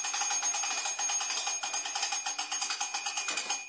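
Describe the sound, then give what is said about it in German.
An alarm rings in a high, bright, rapidly pulsing tone that holds steady and unbroken, fairly faint, from start to finish. “Alarm, ne? Alarm. Alarm. Dann müssen die losfahren, ne?”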